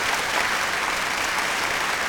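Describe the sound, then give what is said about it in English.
Steady applause from a group of people, a dense, even patter of clapping that holds at a constant level throughout, with no voices. “More claps, more claps, more claps, more claps, more claps.”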